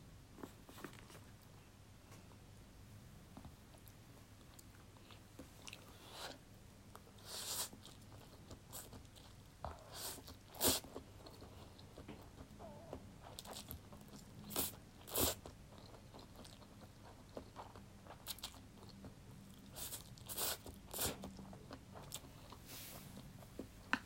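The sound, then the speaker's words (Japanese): Crunchy chewing of dried noodles, with many irregular, crisp bites and crackles, faint throughout and with no talk. “この乾麺にしか出せないジャンギーな味わいが最高だよね。美味しいわ。”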